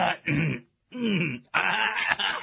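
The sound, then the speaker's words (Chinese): Someone clears their throat in three rough, raspy bursts. The bursts are separated by brief pauses, loud and alone, with no talk. “这诸葛亮啊，清了清喉咙”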